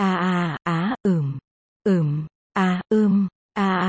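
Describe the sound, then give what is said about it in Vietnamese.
Moaning sounds play aloud from a phone speaker without earphones, part of a Japanese song track. Seven drawn-out voiced groans, several sliding downward in pitch, come in an uneven rhythm separated by short silences. “Tiếng rên rỉ và thở dốc làm người khác phải đỏ mặt.”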